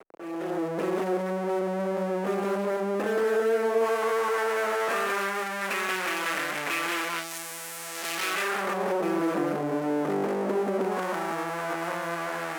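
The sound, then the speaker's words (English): An SF1 synthesizer filter's left output in notch mode produces a loud, sustained buzzy harmonic tone that steps and glides between pitches, with a brief dip in level partway through before it swells again. “So I've got the left output of the SF1 filter in a notch mode, and it sounds like this.”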